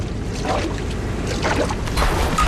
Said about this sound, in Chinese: 这么大的雨好多年没有下过了